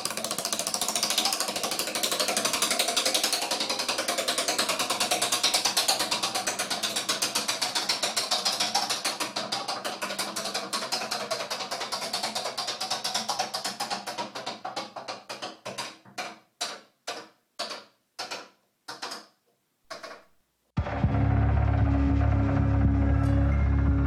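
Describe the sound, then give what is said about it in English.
A prize wheel spins with a rapid ratcheting clatter that gradually slows into a few widely spaced clicks before stopping. A louder, different low sound follows. No voices are heard. “Spin that wheel.”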